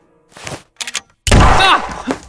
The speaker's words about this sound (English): you shot me, Mick